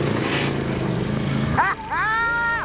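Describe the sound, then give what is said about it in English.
A V-twin 1,000 cc motorbike engine of nearly 200 horsepower gives a steady, loud rumble for over a second, then gives way to voices talking. “V-twin motorbike engine, 1,000 cc's, nearly 200 horses,”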